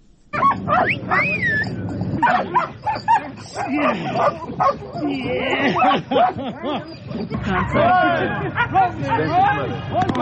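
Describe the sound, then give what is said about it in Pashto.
Dogs bark, yip and whimper at a dog training centre where Belgian and German breeds are trained to find explosives. Many sharp barks and whines overlap continuously, with people's voices and chatter mixed in. “راپور د سپیو د روزنې د مرکز په ژغونو شروع شوی.”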